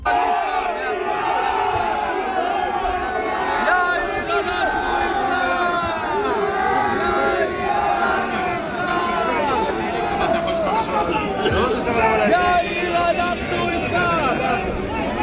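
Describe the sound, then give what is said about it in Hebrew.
Protesters rioting at night in Modi'in create a continuous, loud crowd roar of overlapping shouts and yells that stays dense and steady throughout. “אבל כמה קולות מהמהומות הלילה במודיעין.”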